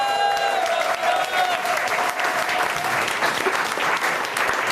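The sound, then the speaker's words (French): Studio audience applause, a steady, loud, continuous wash of clapping that holds evenly from start to finish with no pauses. “Et puis vous l'entendez, il est en forme cette semaine, notre public.”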